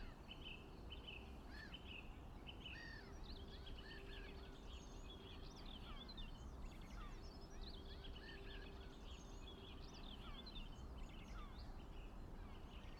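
Birds sing at dawn, with many faint, short chirps and whistling calls scattered over a steady low background hiss.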